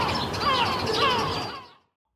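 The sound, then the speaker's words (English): A voice imitates the cries of a flock of gulls wheeling and hovering, giving a stretch of squawky, wavering calls that slide in pitch, then fades to silence. “about 17 gulls had also spotted the pizza. They were wheeling and hovering and going, and”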